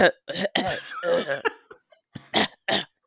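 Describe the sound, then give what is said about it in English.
A voice imitates a lingering cough and throat clearing: a string of rough, gravelly vocal bursts, one longer rasping stretch early on and a few shorter hacking coughs afterward, separated by brief pauses. “the cough that lingered, you know, clearing the throat.”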